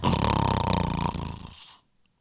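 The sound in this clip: A man, a senior priest, gives one long, loud, rattling snore with rapid pulsing vibration that fades into silence.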